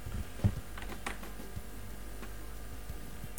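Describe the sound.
A soft click of a button pressed to photograph an envelope for text recognition, with a fainter tick after it over a steady low hiss.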